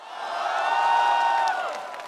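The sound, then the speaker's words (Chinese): A crowd cheers and whoops at a Huawei launch event unveiling the Mate XT2 with its Kirin 9050 Pro chip. The sustained, tonal cheering swells toward the middle, then eases off. “超级快、超级智能、超级酷，三个 super 引爆现场掌声与欢呼。”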